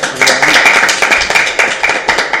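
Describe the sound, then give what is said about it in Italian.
Clapping from a small group at a live dinner show, honoring a musician; loud, sharp claps in a quick, fairly regular rhythm with no talk over them. “Ragazzi, un applauso.”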